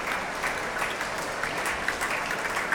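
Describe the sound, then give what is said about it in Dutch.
A concert audience applauds two performers as they leave the stage after a classical performance, a continuous, dense patter of clapping with a few brighter claps standing out. “Afscheid nemen van een dankbaar publiek dat hier op het podium, naast de trap, opnieuw weer applaudisseert voor deze twee.”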